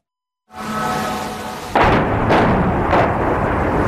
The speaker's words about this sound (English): The moment of impact in yet another round of deadly Russian strikes.